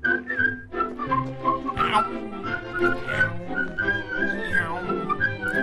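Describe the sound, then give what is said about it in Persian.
A group of dwarves whistling a tune as they walk, a high wavering melodic line that runs continuously over a busy layer of other sounds. “سوت زنان به طرف اخمو میرن، دورش حلقه میزنن.”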